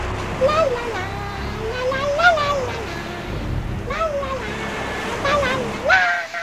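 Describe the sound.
A big sea wave crashes in rolling surges of broad, hissing water noise, while gliding, voice-like tones sound over the surf.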